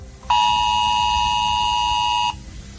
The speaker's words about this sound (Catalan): Un cop arriben els usuaris, el mòbil que ha d'estar actualitzat sona més o menys així.